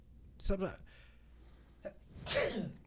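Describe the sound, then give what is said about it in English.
Sneezes: a sharp, loud burst near the start and a second strong one later, with a small breathy sound between them. “I don't know why I'm sneezing so much.”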